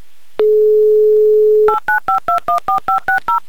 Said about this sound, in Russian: Звоним в Екатеринбург. Звоним прямо сейчас, звоним Альберту.